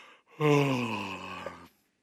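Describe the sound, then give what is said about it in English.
A single drawn-out human yawn: a voiced, open-mouthed breath lasting over a second that starts strong and tapers off before ending in silence. “Just me here mentioning yawning and acting on it,”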